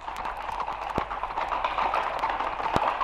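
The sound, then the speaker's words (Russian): Hooves of a cavalry regiment galloping across dusty ground make many rapid clip-clop beats in a steady, driving rhythm, fairly loud and without voices. “Полк галоп. Цок, цок, цок, поднимая тучи пыли.”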